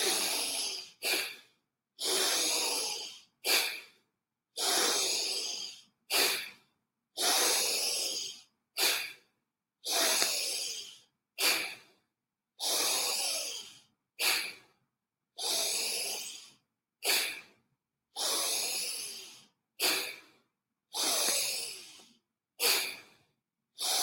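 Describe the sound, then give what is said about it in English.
Forceful bhastrika pranayama yoga breathing: many loud, rhythmic, bellows-like rushes of air through the nose, longer hissing blasts alternating with shorter sharp ones, separated by brief silences, with no talking. “So let's do a couple of more time. Brastrika pranayam.”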